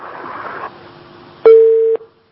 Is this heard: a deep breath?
no